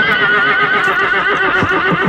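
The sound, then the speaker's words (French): A horse gives one long, loud whinny, a sustained high, wavering neigh that fills the whole moment without a break. “le cheval de Matthias Tannhäuser, ben c'est pas un cheval pour les gamins, hein ?”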